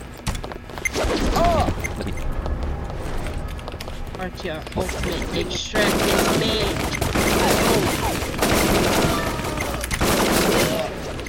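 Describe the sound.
Rapid gunfire in a video game shooter, dense continuous bursts with a brief break partway through, loud throughout and mixed with a person talking.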